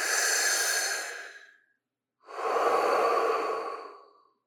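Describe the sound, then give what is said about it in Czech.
Deep, deliberately audible breathing: two long, airy breaths separated by a short silence, loud and slow, with no talk. “zhluboka dýchám a snažím se dýchat tak, abych ten dech i slyšel”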